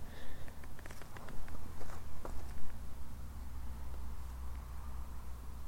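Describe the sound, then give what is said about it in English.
A few soft footsteps as someone steps forward, faint, uneven thuds and scuffs over a steady low hiss and rumble, with no voices during the steps. “As I take a couple steps forward.”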